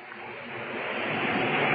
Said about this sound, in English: Listen, James. What? The wind and the tide.